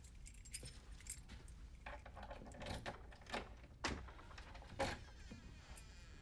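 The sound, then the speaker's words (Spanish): Keys unlock an apartment door with a faint, light metallic jangle. Scattered small rattles are broken by a few sharper clicks. “abre con sus llaves”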